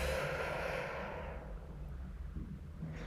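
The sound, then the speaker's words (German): Relaxed exhale after holding a deep breath for five seconds during a calming breathing exercise: a soft, airy rush of breath that fades away over about a second and a half, leaving near quiet. “atme tief ein Hand kannst du gerne auf den Bauch legen, dann fünf Sekunden so versuchen anzuhalten und dann locker ausatmen, so.”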